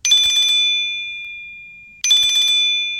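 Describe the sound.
A mobile phone rings with an incoming call from an unknown number. Two bright, high trilling bursts sound alone, each fading slowly before the next.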